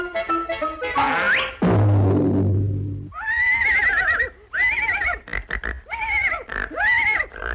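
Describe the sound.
A horse neighs: a rising squealing whinny, then a rough rumbling snort, followed by several loud quavering neighs in a row with short pauses between them.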